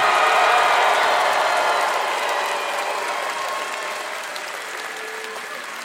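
Applause from the audience at a live show: dense, steady clapping that starts loud and slowly fades a little throughout.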